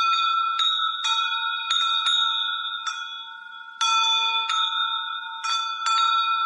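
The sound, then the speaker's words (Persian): Small bells ring outside a village, struck many times in an uneven rhythm. Each strike gives bright, high metallic tones that hang and overlap, with no voices. “صدای زنگوله از بیرون ده شنیده می شد. صدای خفه و مضطربی که دور می شد و نزدیک می شد و دور ده چرخ می زد.”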